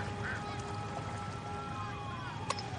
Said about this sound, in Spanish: Ante él se extiende un hermoso lago en el que nadan algunos patos.